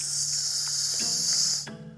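A snake hisses as it slides through grass: a loud, steady, airy hiss holding for most of the two seconds before dropping off abruptly near the end.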